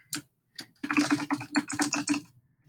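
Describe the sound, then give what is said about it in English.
Typing on a computer keyboard while entering settings on a computer: a couple of isolated key taps, then a quick, steady run of many crisp keystrokes with no talking. “I'm just going to go type it in there.”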